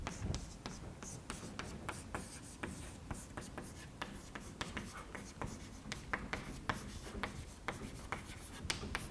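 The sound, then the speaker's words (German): Writing on a board during a physics lecture: many quick, scratchy strokes and taps in an irregular rhythm, fairly faint and steady throughout, with no one talking. “Schreibe ich mal hier hin.”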